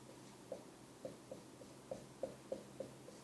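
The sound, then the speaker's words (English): Writing on a board during a lesson, heard as seven faint, sharp taps and ticks in an uneven rhythm, with nothing else beneath them. “And I'm writing on the board, hope one, hope two, hope three.”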